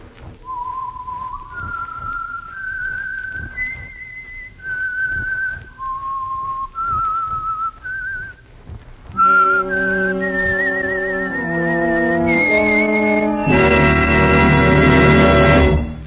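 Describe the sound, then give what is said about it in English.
A lone whistled signature tune for a radio program: a slow, eerie melody of held notes stepping up and down, clear and loud, then orchestral music swells in beneath and takes over with rich sustained chords. “for Sunday evening listening pleasure, the signal to listen for is this whistle that identifies the Signal Oil Program, The Whistler.”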